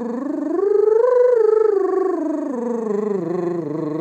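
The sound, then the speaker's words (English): A tongue trill sung as a vocal exercise: a buzzing, rolled voiced tone that glides upward in pitch, then steps down through several lower notes over about four seconds, steady and fairly loud on its own. “Concentrate on keeping the tongue trilling.”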